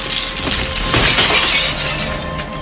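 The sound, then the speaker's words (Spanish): Loud shattering glass and a crash as a minibus smashes through a glass front into shop shelves, a dense burst of breaking and scattering debris that continues for a few seconds. “La señorita le ve acercarse el minibús al vidrio, le empuja a un niño y corre. Y salta huyendo del impacto, Rey termina volando por el impacto del choque.”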